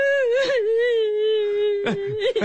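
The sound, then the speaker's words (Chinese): A person crying in a long, high, sustained wail that wavers slightly in pitch, with breathy sobbing bursts near the start and again toward the end. “你别哭了好不好？”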